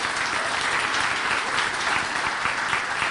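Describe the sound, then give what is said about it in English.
Audience applause welcomes a guest speaker at a church service, a dense, steady wash of clapping hands that holds at an even level throughout with no talk over it. “Let's put our hands together and give Dr. Majeski a warm Commonway welcome.”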